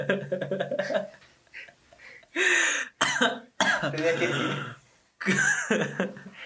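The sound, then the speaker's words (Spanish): Coughing from someone choking on their own saliva: several harsh, separate bursts with short gaps between them, following a brief stretch of voice at the start. “La tos fue de que se me fue la baba.”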